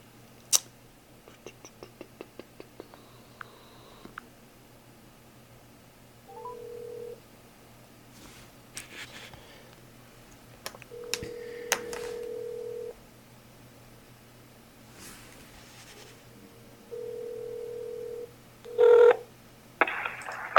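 Telephone dialing to call back: a quick run of short beeps at the start, followed by several long, steady electronic tones separated by quiet gaps. The tones are moderately loud, with a brief louder burst near the end.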